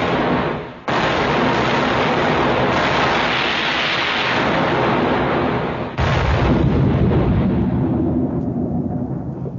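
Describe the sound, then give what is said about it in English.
Ship's guns fire in two heavy booming blasts, each opening a long, loud, roaring rumble that carries on for several seconds with no voices. “Aim for that point over there and fire!”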